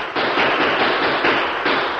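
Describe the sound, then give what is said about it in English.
Gunfire sound effect in a radio drama, where two men open fire during a Western-style shootout with rifles: a dense, continuous loud crackle of shots lasting about two seconds with a few surges, with no talking. “Jake and Merkel opened fire, but they were poor shots.”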